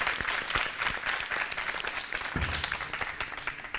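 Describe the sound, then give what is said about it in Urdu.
Enthusiastic applause from an audience at an Urdu-language team event, many hands clapping in a thick, continuous patter that swells and dips slightly without stopping. “ان کی حوصلہ افزائی کیجیے گا زوردار تالیوں کے ذریعے، بسم اللہ۔”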